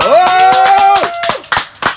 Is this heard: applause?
yes